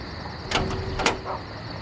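A door is opened for a visitor, heard as two short, faint clacks from the latch or door, about half a second apart, over a quiet background.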